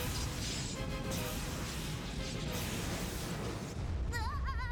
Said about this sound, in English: Mega lasers on full power. Firing lasers.